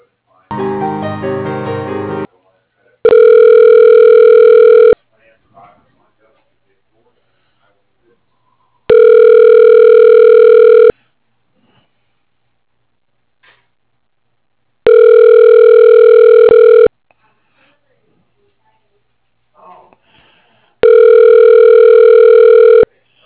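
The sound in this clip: Ringback tone of a telephone call being transferred: four steady, loud two-second tones repeating about every six seconds with silence between, after a short burst of noisier sound at the start.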